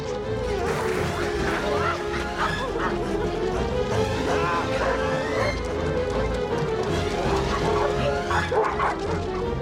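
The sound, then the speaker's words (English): A pack of dogs of different sizes and breeds barks and yips continuously while giving chase, many overlapping barks forming a dense, loud, steady din. “a pack of dogs of all sorts of different sizes and breeds chases after them.”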